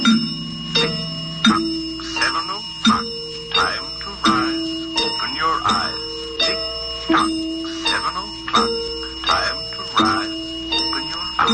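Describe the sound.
Bright, chiming bell tones from an automatic singing clock in a home built for the year 2020 ring in a steady, repeating rhythm. Each struck note rings out briefly before the next one.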